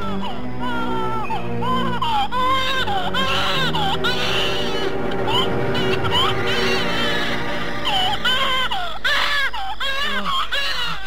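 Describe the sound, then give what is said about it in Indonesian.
A newborn baby boy crying just after birth: loud, continuous wailing in repeated rising and falling bursts, with whimpering breaks between the cries. “Tidak lama kemudian, terdengarlah tangis bayi laki-laki.”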